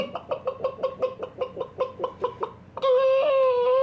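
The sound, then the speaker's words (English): A human voice imitates a chicken clucking: a quick, even run of a dozen or so short, throaty clucks, then one loud, drawn-out squawk held to the end. “Can you do a chicken voice noise? No. Okay. I can only cluck.”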